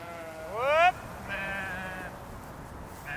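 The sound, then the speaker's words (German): Sheep in a herd bleat in a few loud, clear calls. The first call rises in pitch, a steadier bleat follows, and another call begins at the very end. “Und wenn ich die eben rufe, dann das sind die Leitschafe, die kommen.”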